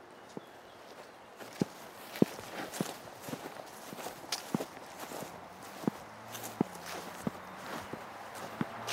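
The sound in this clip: Footsteps walking outdoors across grassy ground toward a beech tree, a steady run of soft, irregular treads with occasional louder steps over a quiet background.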